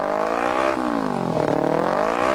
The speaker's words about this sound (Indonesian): Ambang batas telinga kita mampu mentolerir suara kendaraan bermotor itu antara 85 desibel sampai 90 desibel. Suara knalpot kendaraan yang terlalu bising tentu sangat merugikan